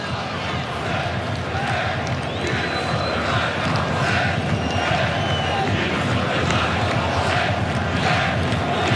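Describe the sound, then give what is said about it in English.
Moroccan football supporters chant in a stadium in Foxborough, making a dense, continuous crowd roar that stays loud and even throughout. “It's the sound of the Moroccan supporters.”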